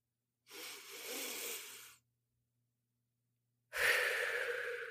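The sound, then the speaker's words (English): Slow, deep breathing during a calming breathwork exercise: one long airy inhale, a pause of silence, then a strong, breathy exhale that is still running at the end. “It's time to breathe. Yep. Breathe again.”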